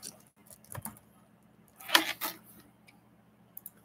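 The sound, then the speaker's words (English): A few sparse, quiet taps on a computer keyboard, irregularly spaced with one slightly louder cluster of clicks in the middle, heard alone. “i see if I can type something.”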